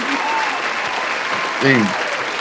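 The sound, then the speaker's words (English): An audience applauds to welcome a guest on a show, with dense, steady clapping throughout and a voice briefly cutting in near the end. “Round of applause, ladies and gentlemen.”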